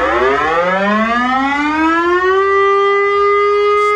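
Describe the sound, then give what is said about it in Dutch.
A Dutch air raid siren sounding its monthly noon test: a loud, wailing tone that climbs steadily in pitch, then holds high and steady, alone. “Het luchtalarm. Elke maand om 12 uur gaat dat weer gebeuren.”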